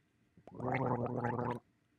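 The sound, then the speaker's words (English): A person gargling for about a second, a thick bubbling throaty rattle that starts abruptly and stops cleanly, heard alone against quiet. “A sound of gargling or like that of gargling, that is a gargle. So when I go, that's a gargle noun.”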